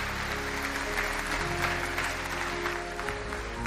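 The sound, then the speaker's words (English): A church audience claps at a Sunday morning service to welcome new members, a steady and evenly dense round of applause that continues throughout at a moderate level with no talk above it. “Can we put our hands together and welcome people into God's family this morning?”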